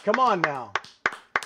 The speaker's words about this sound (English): You're clapping. That's the sound of one man clapping in the downtown studios of 670 The Score.